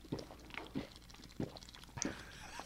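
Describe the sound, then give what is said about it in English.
Someone gulps down a whole drink in one go. The swallows come as a few faint, evenly spaced gulps with soft mouth noises between them. “Chug the whole thing.”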